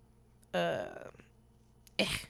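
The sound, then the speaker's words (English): A person coughs twice, a rough, throaty burst followed after a short pause by a sharper, shorter cough, both fairly loud against quiet surroundings. “You got that cough. You can't get that cough out.”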